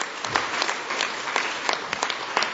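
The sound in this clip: Audience applause welcoming a speaker to the stage, brisk even clapping from a crowd that holds steady throughout.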